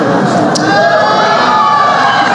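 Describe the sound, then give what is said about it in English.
Dense murmur of a large audience filling a room at tables before an event, a steady wash of many overlapping voices with no single voice standing out, holding at a constant loudness throughout. “They're a little overwhelmed. They've never seen an audience this big before.”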